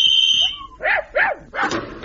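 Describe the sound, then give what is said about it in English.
A leashed tracking dog barks three times, each bark sharp and whining in tone with short gaps between them, after a steady high tone at the start. “Have you got a strong enough leash on that dog”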